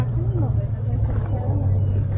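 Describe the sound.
A car passes on a street with people nearby. A steady low engine rumble runs underneath while people talk over it.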